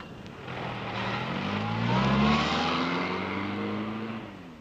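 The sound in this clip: A car engine pulls away at night after dropping off passengers, rising in pitch as it accelerates, swelling in loudness and then slowly fading.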